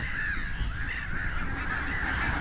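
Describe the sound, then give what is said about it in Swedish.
Thousands of black-headed gulls calling at once form a dense, unbroken chorus of overlapping harsh, nasal cries that holds a steady, fairly loud level throughout. “för här är det tusentals skrattmåsar”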